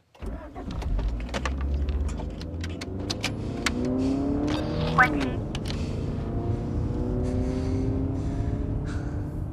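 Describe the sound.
A car driving off, its engine revving loud and continuous for about ten seconds, with engine tones rising and falling as it pulls away.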